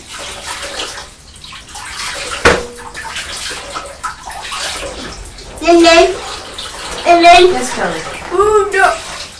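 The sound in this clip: Tap water runs steadily while hands are washed, giving a continuous hiss and splash with some sloshing. In the second half, a child and an adult talk over the running water.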